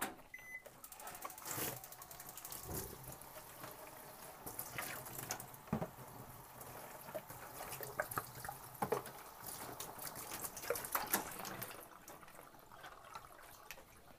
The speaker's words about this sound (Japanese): ちょっとこれお湯出して大丈夫かな